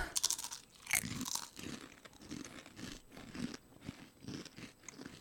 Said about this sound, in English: It tastes like a barbecue chip. This is interesting. Mm-hmm. I also should mention that these are kettle cooked.